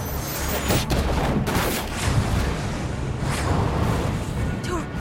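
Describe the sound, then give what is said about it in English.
Explosion as a missile strikes a van during a battle between factions, heard as a loud, dense, continuous roar of blasts and rumbling with gunfire-like crackle running through it. “The van becomes a fireball as the missile strikes.”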